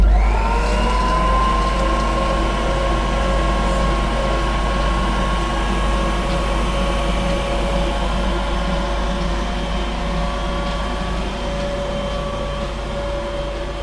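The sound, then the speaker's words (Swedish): Electric dough mixer kneading wheat-flour bread roll dough with a splash of oil, giving a loud, steady motor hum with a churning, rumbling texture that runs unbroken throughout, with no voices. “Det är inte lättast att göra radio in till en degblandare som gör frallebullar, så att jag får flytta mig lite.”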